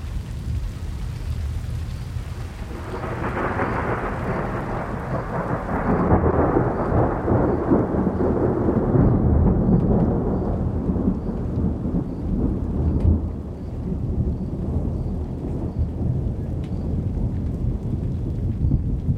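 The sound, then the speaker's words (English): Heavy rain drums steadily on a metal roof near the foothills of the Manzano Mountains in central New Mexico. It starts softer, swells into a loud, dense downpour after a few seconds, and a deep low rumble runs beneath. “What begins as a drizzle turns into a downpour, drumming rhythmically on a metal roof. Steve Peters recorded these sounds near the foothills of the Manzano Mountains in central New Mexico.”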